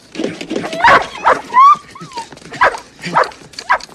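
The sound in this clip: A dog whimpers and yips, giving several short yelps and a high, wavering whine in uneven bursts.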